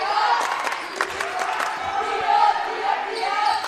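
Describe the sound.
Basketball dribbled on court during a college game, with many sharp, quick bounces in an uneven rhythm, heard under a commentator's voice and crowd noise.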